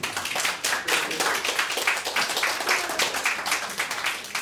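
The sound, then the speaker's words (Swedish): An audience claps its hands in dense, steady applause that carries evenly through the whole clip without rising or fading, and no voices stand out above it. “En liten applåd.”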